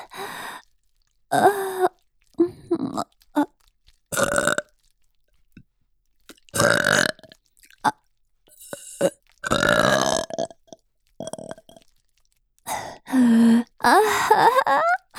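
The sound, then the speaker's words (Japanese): Repeated burps after drinking milk, many voiced, throaty bursts separated by short pauses, some long and groaning, others short, rising and falling in loudness throughout. “出た。どう？ママのミルクゲップ。”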